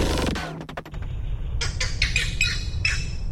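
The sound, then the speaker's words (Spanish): Green heron calls: several harsh, raspy squawks in short bursts at uneven intervals over a low, steady background rumble. “La garcita verde, Butorides virescens. La garcita verde es una de las garzas más pequeñas y llamativas de América.”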